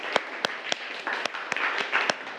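Students in a classroom clap their hands: a series of sharp, irregular claps, fairly loud and close together, with no talk over them.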